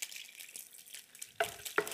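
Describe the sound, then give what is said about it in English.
A pot of liquid on a stove returns to a boil, giving a faint, steady bubbling hiss. Two brief metallic clinks ring out near the end. “It's got to come up to a boil again here. Maybe I'll put the lid on. Get that going real fast.”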